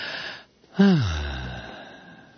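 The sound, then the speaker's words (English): A man takes one deep, audible breath, a wheezy gasp that slides down in pitch and trails off into a long, fading exhale. “Okay, take a breath, Malloy.”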